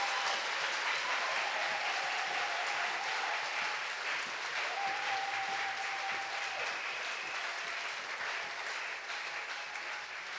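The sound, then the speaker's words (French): An audience at a church worship gathering claps together in steady, sustained applause that continues evenly throughout, a dense crackle of many hands with no clear pauses. “Maintenant, acclamons ensemble le Seigneur. Now let's clap for the Lord all together.”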